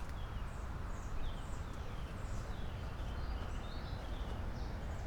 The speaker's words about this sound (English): Wait, I heard... Oh, it's just a birdie.